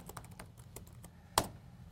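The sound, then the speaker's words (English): Typing on a computer keyboard while entering a git command at the command line: a quick, uneven run of many light key clicks, then a pause and one noticeably louder, sharper keystroke, followed by quiet. “So I can do git add dot. Very cool. Oops. Ah. I know, it's hard to type when people are watching you.”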